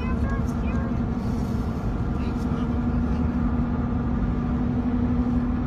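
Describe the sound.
A car engine in a TikTok video gives a constant low drone with a steady held tone, unbroken from start to finish.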